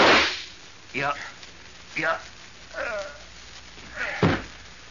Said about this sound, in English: I warn you, Randolph, I've got a gun. I'm going to shoot.